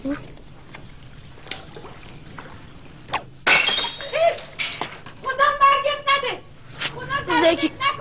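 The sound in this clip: Glass shatters in one sudden sharp crash partway through, after a stretch of quiet background, and voices talk and call out right after the break.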